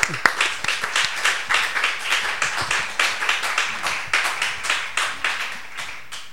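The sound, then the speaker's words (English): A church audience applauds to welcome a speaker with steady clapping in rhythmic, pulsing swells that stays loud and continuous throughout. “Okay, let us receive him with big hands. Welcome.”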